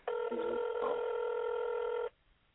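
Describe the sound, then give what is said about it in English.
A steady electronic telephone tone on a narrow phone line holds for about two seconds, then stops abruptly, with brief voices overlapping it near the start. “We're dialing in”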